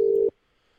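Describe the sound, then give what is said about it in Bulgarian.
A telephone line gives a steady mid-pitched ringing tone while a call is placed. It sounds loudly for about a third of a second, then cuts off abruptly into near silence. “В момента правя опит да се свържа, за да продължим разговора там, откъдето прекъсна. Да, ето в момента звъни.”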